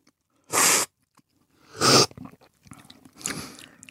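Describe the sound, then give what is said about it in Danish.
A few short, hissing slurps of coffee sucked loudly from a spoon during a coffee tasting, each a sharp burst of airy noise separated by brief quiet gaps, with faint mouth sounds between them. “Så må man gerne smaske lidt, når man øh, smager.”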